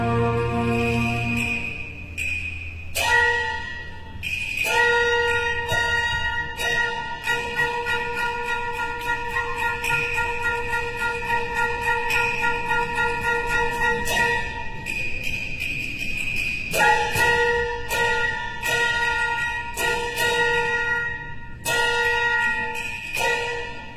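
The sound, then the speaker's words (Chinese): Orchestral wind instruments imitate a small gong in a symphonic suite on Chinese opera themes, played with Western instruments. Bright, sustained high tones start with sharp, repeated attacks, and bursts of clustered strikes break the held notes. “我们听到里面呢用管乐器模拟了小锣的声音”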